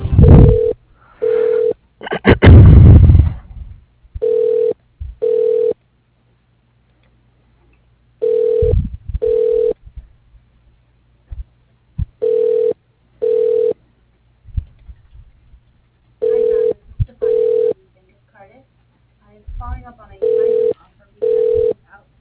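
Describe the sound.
Ringback tone of a phone call being transferred to voicemail: six pairs of short steady rings repeat about every four seconds, separated by quiet gaps and a few clicks and rustles on the line.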